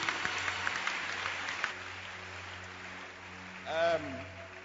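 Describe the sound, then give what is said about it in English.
Audience clapping hands, a dense patter of many claps over the first couple of seconds that then thins out beneath a steady low hum, with a brief voice-like tone near the end. “clap your hands. Beautiful.”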